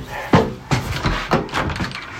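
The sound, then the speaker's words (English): A front door being opened, heard as a few short clunks and thuds spaced unevenly over two seconds, the first one the sharpest and loudest, with no talking. “You coming to answer the door with me?”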